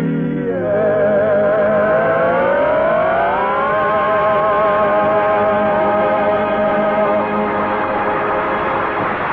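A car engine pulls away toward the woods. The loud engine note climbs in pitch as it accelerates, then holds a steady drone, with no other sounds.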